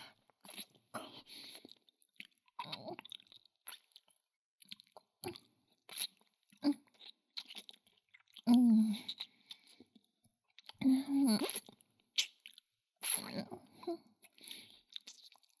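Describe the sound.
Food is chewed and crunched with a full mouth: many irregular, faint, wet crunching bites and squishy chews, with louder crunch bursts scattered among quieter ones.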